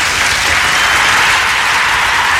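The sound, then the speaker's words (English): Steady, loud applause from a crowd, dense clapping that holds an even level throughout with no voices. “Got to give him a round of applause, man, I tell you.”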